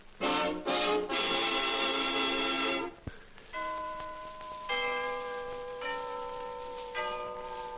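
Clock striking the hour with bell chimes: a few quick strikes, then a slower series of four sustained, ringing tones at differing pitches, clear and without voices.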